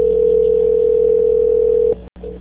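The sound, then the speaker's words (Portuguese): A steady telephone tone plays while a call is transferred. The single loud, level hum holds for about two seconds, then breaks off and returns only briefly. “eu vou transferir a ligação.”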